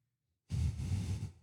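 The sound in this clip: A single cleansing breath taken during a breathing exercise: one soft, breathy exhale that starts abruptly after silence, holds for close to a second, then fades, with no talking.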